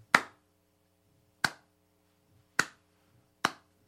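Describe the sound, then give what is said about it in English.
Four sharp, isolated hand claps land slowly and deliberately, each about a second apart, crisp and bright, with silence between them and no voices. “Slow clap.”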